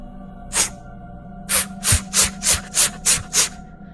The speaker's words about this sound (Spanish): Empiezo a clavar las tres puntas de la herramienta en el cuadro una y otra vez rasgándolo.